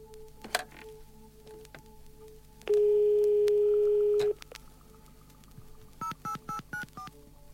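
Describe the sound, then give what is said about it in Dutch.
Dutch PTT Telecom telephone network signal tones: a few sharp clicks, then a loud steady single-pitch tone held for about a second and a half, followed by five short, quick dialing beeps. “En tenslotte de klanken van PTT Telecom. Nou, daar gaan we naar luisteren.”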